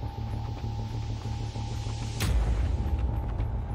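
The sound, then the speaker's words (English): A single gunshot in the video game Psyber-X, a sharp crack with a deep boom, set against a steady electronic hum. “Watch how the gun shoots.”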